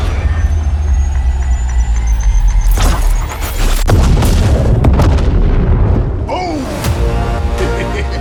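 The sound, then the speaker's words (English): Grenade explosions in a video game: a couple of heavy, sharp booms burst out of a loud, constant rumble of game noise, with crackling debris trailing after them. “You've been spotted. Grenade.”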